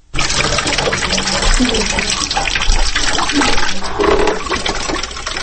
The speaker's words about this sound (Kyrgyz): үйүнүн үстүнөн алып түшкөн сууну төгүп жатат